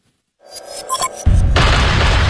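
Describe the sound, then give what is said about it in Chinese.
Artillery fire from massed Soviet cannons and rocket launchers opening a wartime barrage: scattered crackling bursts build into a heavy boom, followed by a loud, continuous roaring rumble. “凌晨五点，苏军3000门加农炮和火箭炮同时对德开火。”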